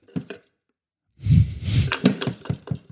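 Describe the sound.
A package holding metal objects is shaken: a brief rattle, a short silence, then a longer run of jangling, clinking rattles in uneven bursts.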